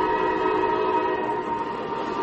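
A Ringling circus train, about 60 cars and 1.5 km long carrying performers and animals, gives a steady droning rumble with a sustained tonal hum throughout, fairly faint and with no voices.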